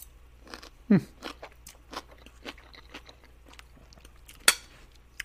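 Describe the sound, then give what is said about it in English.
A person chews and eats food with many faint, crunchy bites and mouth sounds in an irregular rhythm. Two louder, sharp crunches stand out, one near the start and one later on. “I don't talk. I'm busy eating. I can't talk. You don't talk while you eat.”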